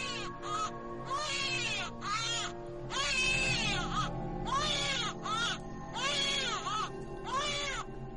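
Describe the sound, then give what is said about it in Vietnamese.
A newborn baby girl crying faintly from afar, with many repeated wailing cries rising and falling in pitch, separated by short pauses over a low steady background. “Đâu đây có tiếng trẻ con đang khóc văng vẳng.”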